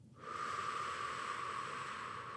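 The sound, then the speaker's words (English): A deep breath taken during a guided relaxation, drawn down to the feet: after a brief silence, a loud, steady airy rush begins suddenly and holds unbroken to the end, with no talking. “Just take a big deep breath all the way down to your feet. And as you breathe out,”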